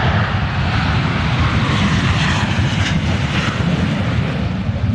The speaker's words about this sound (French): Ça, c'est le bruit d'un FA-18 à l'aéroport de Payerne.